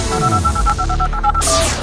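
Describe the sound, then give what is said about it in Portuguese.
Telephone keypad tones sound as a call is connected on a radio phone-in. A quick run of many short, bright beeps is followed by one longer steady tone, all over a dense background. “Vou atender agora a Cecília aqui do Branco as Nuvens.”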